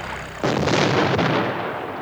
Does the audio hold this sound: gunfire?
yes